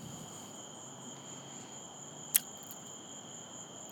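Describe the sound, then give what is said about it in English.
Crickets chirp in a faint, continuous high trill that holds steady throughout, broken once midway by a single sharp click. “We'll listen to some crickets while I think of what it was.”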